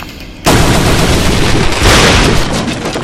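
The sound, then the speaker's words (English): A door is smashed in a video game by repeated space-bar hits: a sudden loud crashing burst at about half a second swells into a dense, roaring noise that lasts to the end. “The door sound you're hearing off to the right, that's a door. You want to be right here. And hit the space bar to destroy it. And you have to hit them a few times.”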